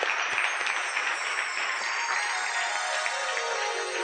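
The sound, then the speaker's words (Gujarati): An audience applauds to welcome a swami with a steady, even roll of many hands clapping that holds unbroken throughout. “એકવાર વિષ્ણુ સ્વામીને તાળીથી વધારી દે.”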